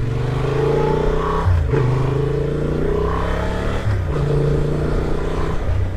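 Motorcycle engine drone while riding along narrow country lanes in standard mode on an off-road-friendly bike with a 21-inch front wheel: a steady, fairly loud hum with a couple of brief shifts in the engine note.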